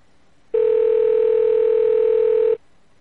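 A single telephone ringback tone on an outgoing call, a steady mid-pitched buzzing note lasting about two seconds, with quiet before and after.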